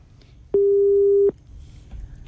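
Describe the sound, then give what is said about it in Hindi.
A single steady mid-pitched telephone tone sounds after a caller's line disconnects. The loud, unwavering beep lasts under a second and stands out against faint background hiss. “इनका तो call disconnect हो गया, शायद इन्हें हमने इंतजार ज्यादा करा दिया है.”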